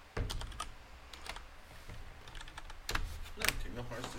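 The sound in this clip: Typing on a computer keyboard: many rapid, irregular key clicks and clacks with uneven spacing, some louder strokes standing out, over a low steady background.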